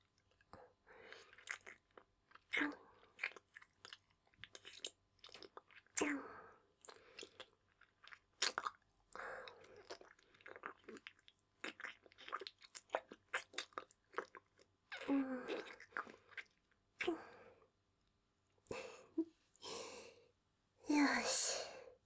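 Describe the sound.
Deep, wet kissing sounds: many irregular smacks, sucks and lip pops in uneven bursts with short pauses, mixed with soft breathy sighs, faint overall and without talk.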